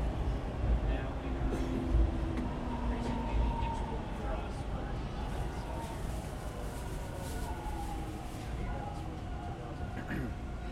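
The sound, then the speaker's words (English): A subway train pulls into an underground station with a steady low rumble and faint high brake squeals. The sound stays fairly quiet and even throughout. “here goes the train, it's going to park”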